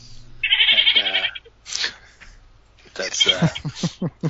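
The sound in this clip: A voice imitates goat bleats as the goat folk give their farewell: one long, wavering, nasal bleat, then a pause and a run of shorter, choppier bleating sounds.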